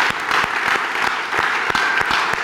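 An audience applauds during a French-language church service of worship and praise, the clapping dense and steady with sharp overlapping claps throughout.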